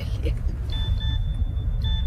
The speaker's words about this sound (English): Oh, what now? Is that your phone? Yeah. It's an answer phone message.